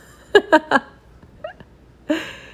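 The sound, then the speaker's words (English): Cat meowing: three short, bright meows in quick succession, a couple of faint chirps, then one longer, louder meow, with quiet gaps between and no talk. “There is a cat here”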